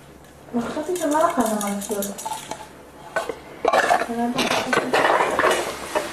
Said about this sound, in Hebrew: רוצה למזוג? תמזגי. את מערבבת.